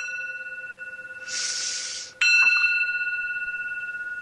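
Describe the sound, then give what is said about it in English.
A meditation bell rings with a sustained, steady pure tone and overtones, joined by a brief hiss and then a brighter struck chime that lingers and pulses gently as it fades, with no voices. “Then I say, breathe in the bell. It sounds like this.”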